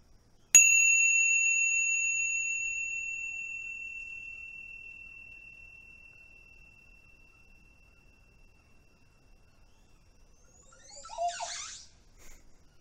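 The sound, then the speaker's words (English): A meditation bell is struck once, and its clear, high ringing tone fades slowly over several seconds into silence. A faint, brief rustle follows near the end. “Let's tune into the sounds of the bells again, as we did on the first class, and just see if the relationship to the sound is any different now than it was.”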